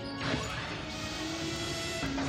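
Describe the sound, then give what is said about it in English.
An empty, short-circuited escape pod launching in a science-fiction scene: a loud, sustained crashing burst laced with swept whistling tones that holds to the end. “There goes another escape pod. Hold your fire. There are no life forms aboard. It must have short-circuited.”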